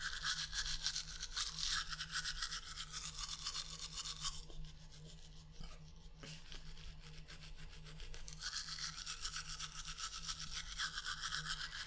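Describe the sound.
A manual toothbrush scrubs teeth, including the upper molars and the backs of the teeth, in fast, steady, rhythmic strokes. The scraping eases to a softer stretch midway, then returns to full strength, with no voices.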